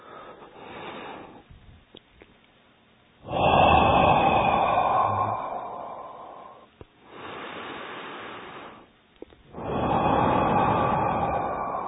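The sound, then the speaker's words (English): Slow breaths in a breathing exercise, exhaling through the mouth and inhaling through the nose, with long, loud, airy exhales alternating with quieter breaths and short pauses between them. “Exhale from the mouth, inhale from the nose. We'll count in our mind. So we'll do 10 times, okay?”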